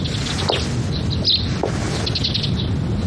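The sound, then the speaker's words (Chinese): Two birds chirp: many short, high, thin tweets scattered over a steady rushing background noise. “两只鸟在说悄悄话呢。”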